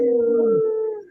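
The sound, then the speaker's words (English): Human voices howl like wolves in a long, steady tone that sinks lower and fades near the end. “I just want to give a big howl to our relatives, the wolves all over Turtle Island, and howl for their protection.”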